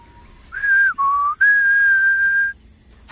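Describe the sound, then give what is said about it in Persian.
A person whistles a short tune of three clear sustained notes: a higher note, a lower one, then a long held return to the higher pitch. The whistling is alone, with no talk. “ببینم منظورت سوت زدنه؟ عالی، این میتونه سوت مخفیانه رفاقتمون باشه”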